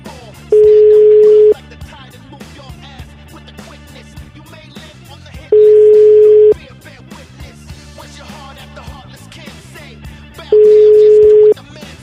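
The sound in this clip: Telephone ring tone on a call line: three steady mid-pitched tones, each about a second long, repeating at even intervals over a busy background of other sound.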